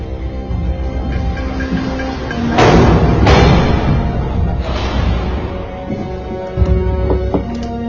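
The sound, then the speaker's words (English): Heavy prison gates close with a few loud, booming metallic slams that cut through a steady, droning background rumble. “Gates closing!”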